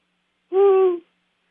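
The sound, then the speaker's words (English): A voice imitates an owl's hoot: one sustained, steady-pitched 'who' lasting about half a second, alone. “sitting on the top of a big old pine tree, sat Mr. Owl. And that owl, he looked at that girl, and he said these words. Who,”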